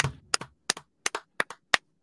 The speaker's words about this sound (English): Speaking of Pittsburgh, let's give a round of applause to Mike Tomlin.